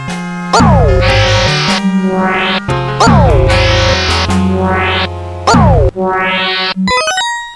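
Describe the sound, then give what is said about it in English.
Synthetic video game sound effect of an enemy firing yellow torpedoes in a scrolling shooter: three loud buzzy blasts, each sweeping downward in pitch under a rising whine, then a quick stepped upward tone at the end. “at a certain point, it starts shooting like these yellow torpedo things at you. And it's just a really cool sound effect.”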